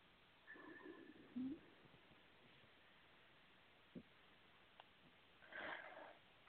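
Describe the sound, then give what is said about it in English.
Faint nasal breathing: a few soft sniffing inhalations at scattered moments, ending in a longer, fuller breath drawn in near the end, all quiet and with no talking. “I'll take a nice deep breath.”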